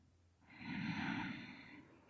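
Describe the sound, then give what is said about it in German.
A single slow, deep breath drawn in during a guided breathing exercise: a soft, airy rush that swells and holds for over a second, quiet and alone with no talk. “Atme einfach mal tief ein. Und aus. Ein.”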